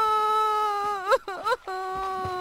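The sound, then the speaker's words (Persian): A voice imitates a small black fish crying in a story: a sustained, whining tone breaks into a couple of shaky, quavering sobs, then settles back into a steady whimper. “ماهی سیاه گریه اونو که دید”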